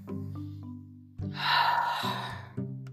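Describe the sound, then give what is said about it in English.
A deep breath drawn in, a long airy rush lasting under a second that swells and fades, set over a low, steady sustained tonal drone. “So, if you're ready, take a deep breath.”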